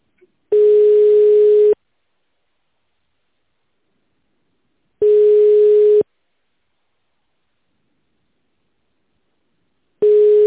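A telephone ringback tone plays while a call is being put through: a steady, mid-pitched beep lasting about a second repeats after long silent gaps, three times, the last cut short.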